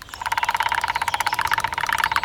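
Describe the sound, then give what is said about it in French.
Two woodpeckers hammer a tree trunk with their beaks at great speed, making a fast, steady train of many sharp, mid-pitched taps that runs without a break. “Les deux pivers martèlent le tronc avec leur bec à une allure folle.”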